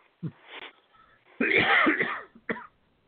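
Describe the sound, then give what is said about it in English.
Sudden coughing, several harsh, throaty bursts in quick succession with a longer rasping fit in the middle, fairly quiet and with no talk. “Got the cough all of a sudden.”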